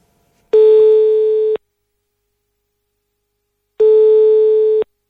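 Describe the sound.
Telephone line tone from an outgoing call: two steady, loud, long beeps of the same pitch, each about a second long, separated by a few seconds of silence.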